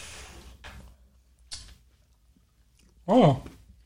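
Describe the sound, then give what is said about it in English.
A person makes chewing and eating sounds with their mouth while eating birthday cookie cake. A few short, crunchy smacks are followed by a brief, louder voiced hum between quiet gaps. “I'm making sound effects so you know that we're eating.”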